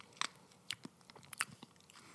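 Soft, wet mouth smacking as someone tastes a vegetable-based ketchup-style sauce: a few quiet clicks and smacks scattered over two seconds, with no talking.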